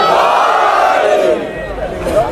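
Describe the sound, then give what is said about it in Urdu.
A crowd at a religious gathering loudly chants the Nara-e-Haidari slogan in one sustained collective shout from many voices, which drops in strength partway through before swelling again. “ایک مرتبہ بلند آواز سے نعرہ حیدری.”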